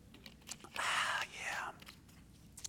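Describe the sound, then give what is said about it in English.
A sip of a sweet drink, a loud airy slurp followed by a softer, lower slurp, heard on its own. “Hang on, guys. Got to taste some of the sweet nectar again.”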